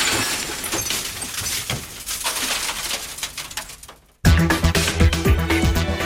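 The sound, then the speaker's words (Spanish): A mirror is smashed: a sudden loud crash of breaking glass follows a fading rushing sound, and bright tinkling shards continue to ring afterward. “Voy a romper este espejo, que me tengo muy visto.”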